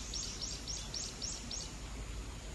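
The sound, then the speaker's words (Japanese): Faint bird chirps on a farm: about six short, high chirps repeat at a steady rhythm over a constant low background hiss. “ちょうど鳥がピッピッピッピッって言ったわけよ”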